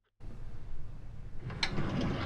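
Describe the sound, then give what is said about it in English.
A window being opened in a room full of smoke: a faint, low, rumbling scrape that starts suddenly, with a brief sharper knock or creak partway through, then continues as a low rumble. “The room's full of smoke. There's a fire. Opium. Unless I'm very much mistaken. Jones must have brought some with her. I'll open a window.”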